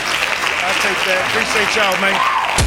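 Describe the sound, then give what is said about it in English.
Steady applause for a guest, a dense continuous patter of clapping with voices talking over it throughout, ending in a sharp click. “We do got hand claps to Dion”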